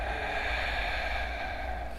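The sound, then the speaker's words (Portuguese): A long audible in-breath taken during a guided breathing and meditation exercise: a steady, breathy hiss that runs evenly through the whole moment, with no talk over it. “Então você inspira um sim. E respiro assim.”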